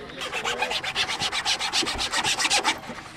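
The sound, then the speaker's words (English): Sandpaper scrubbing hard against a wooden model car body in many quick, regular back-and-forth strokes, a bright, raspy scratching that pulses steadily and evenly. “And you really want to sand down hard so it gets more of a shape and it goes faster.”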